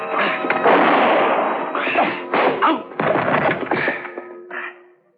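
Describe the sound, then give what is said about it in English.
A wooden piano bench is kicked against a man's legs in a struggle with a gunman, giving a loud crash followed by several heavy thuds and rattling knocks that fade out. “I suddenly dropped to the floor, kicking the bench against his”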